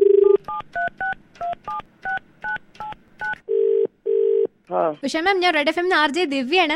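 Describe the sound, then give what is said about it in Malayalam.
Phone keypad dialing tones beep in a quick run of short dual-tone presses. Two longer ringback tones follow, then a voice answers the call. “അപ്പൊ അവിടുത്തെ വിശേഷങ്ങൾ അറിയാൻ വേണ്ടി നമുക്ക് direct ആയിട്ട് ഒരാളെ വിളിച്ചു നോക്കിയാലോ.”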